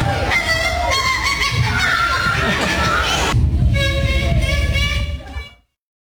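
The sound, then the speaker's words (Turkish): A 12-year-old boy imitates bird calls at a school show. A steady stream of loud, tonal honking and warbling calls changes character partway through, then cuts off sharply just before the end, with faint crowd noise underneath. “125'ten fazla kuş sesini taklit edebilmesiyle ünlendi. Okulunda yaptığı bu gösterinin görüntüleri sosyal medyada yüz binlere ulaştı.”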